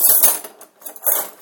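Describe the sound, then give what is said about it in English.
Metal cutlery clinks and rattles as it is washed at a kitchen sink. A few bright jingles and scrapes come in short bursts, with a brief quiet gap in the middle. “Now I'm doing cutlery and I've got too much on my draining board.”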